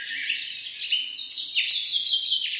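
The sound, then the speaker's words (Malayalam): Myna birds whistle and sing from a rose apple tree, alongside orioles, in a village yard: a continuous, lively stream of varied high whistles and warbled notes at a steady moderate level, with no voices. “മാടത്തെയും ചൂളം വിളിക്കുന്നുണ്ട്. എത്ര ഈണത്തിലും താളത്തിലുമാണ് പക്ഷികൾ ശബ്ദമൊരുക്കുന്നത്.”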